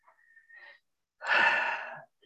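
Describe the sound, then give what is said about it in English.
A person takes one deep breath, a loud, airy inhale lasting under a second, with no talk. “And one way to do that is take a breath. Always breathe.”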